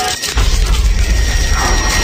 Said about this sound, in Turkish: Zaman makinesi.